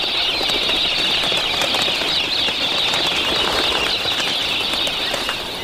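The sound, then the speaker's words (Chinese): Pink cockatoos (galahs) near farmland make a continuous rushing, fluttering noise of many flapping wings throughout, steady and fairly loud. No distinct calls stand out. “粉红凤头鹦鹉常年生活在农场附近，”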